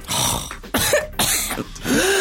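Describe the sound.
A person clears their throat repeatedly, with four harsh, rasping bursts, some carrying short voiced grunts, separated by brief gaps. No words are spoken.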